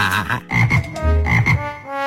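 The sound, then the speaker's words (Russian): Frogs croaking in a spring swamp near a town, a few loud, throaty croaks in quick succession with short pauses between, and no talk. “Весной, когда после зимы просыпалась природа, она, радуясь, громко квакала вместе со своими подружками.”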